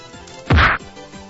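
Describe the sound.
A single cartoonish whack sound effect, triggered in an IRC chat room by typing a keyword, lands as one loud, punchy thwack with a low thud and a bright crack, alone over a faint background.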